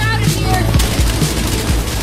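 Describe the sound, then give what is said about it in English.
Gunfire from the trailer for the Grand Theft Auto 6 video game, amid chase and robbery action. A few sharp shots cut through a dense, loud backdrop. “lots of shooting.”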